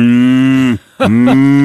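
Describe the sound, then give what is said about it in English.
A chainsaw cutting a tree during tree work outside, heard as a steady, loud, buzzing engine drone. The drone cuts out briefly near the middle, then returns with a rough burst and settles back into the same steady tone. “It's not a cow. It's not a cow. It's a chainsaw, you silly.”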